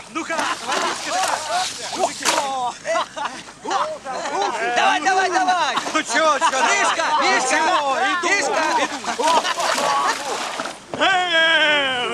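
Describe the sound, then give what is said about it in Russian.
Undressed tank crewmen run into a river, splashing water with continuous loud sloshing and splatter. Many excited shouts and yells rise over the water throughout. “Танкисты раздеваются. Вбегают в реку. Один бросает в воду дымовую шашку.”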